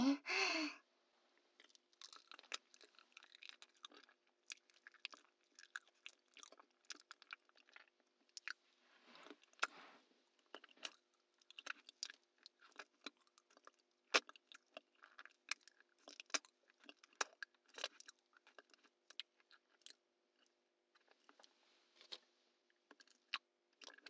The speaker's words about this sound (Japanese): こうやって丁寧に噛みほぐして